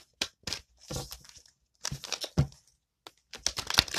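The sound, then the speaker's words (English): Cards drawn from a Psychic Tarot deck produce papery flicks, slides and rustles in irregular bursts separated by short silences. “I'm going to pull two cards from Psychic Tarot.”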